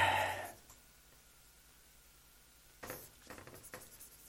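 A marker writing on a flipchart sheet: after a brief loud swish at the start and a quiet stretch, a few faint, scratchy strokes rub across the paper.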